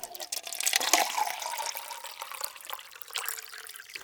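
Drinking water poured into a vessel, a faint continuous trickle and splash that fluctuates slightly and eases off toward the end, with no talk.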